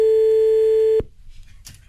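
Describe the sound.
A telephone line tone as a call is placed to a listener: one steady, loud, even tone lasting about a second that cuts off abruptly, leaving faint low noise.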